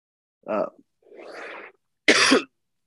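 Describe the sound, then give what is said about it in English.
A person with a cold coughs in three harsh bursts separated by silence; the middle one is a longer, rasping sound, and the last is the loudest. “I already said earlier I got a cold or I got a cough. We'll see what that is later. It's kind of getting worse as the show goes on.”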